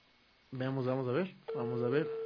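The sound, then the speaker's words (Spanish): Ringing tones of an outgoing telephone call to a guest on a radio program, heard as two buzzy, mid-pitched rings of under a second each, separated by a short gap and moderately loud. “Así que vamos a ver si nos contesta nuestro amigo Wilito.”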